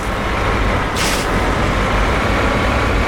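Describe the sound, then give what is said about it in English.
A steady, loud engine roar from a vehicle driving backwards in a video game, holding level throughout with one brief hissing burst just after the first second. “we're driving backwards, which Brian says is always the best plan”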